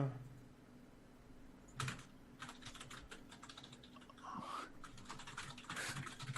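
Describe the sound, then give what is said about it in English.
Keyboard typing from several people at computers, with quick clusters of light clicks and keystrokes in an irregular, busy patter at moderate loudness. “Typing, typing, typing. Everybody's typing.”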